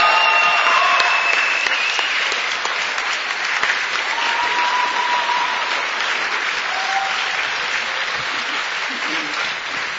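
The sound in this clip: Audience applause at a Budapest conference welcoming a pastor to the stage: a dense, steady clapping of many hands that holds loud for the whole stretch, easing only slightly toward the end.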